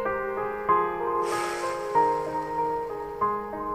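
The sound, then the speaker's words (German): A forceful puff of exhaled breath follows a deep inhale during a guided breathing exercise. It is a single, brief, breathy rush over a steady, sustained musical tone. “Bewusster Atemzug einatmen. ganz tief von unten nach oben die Luft und dann mit einem Puster ausatmen.”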